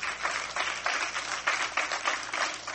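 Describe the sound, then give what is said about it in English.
A church audience claps hands in praise during a morning service, a sustained, dense round of clapping with a loose, pulsing rhythm. “If that's you this morning, get the Lord a hand clap of praise”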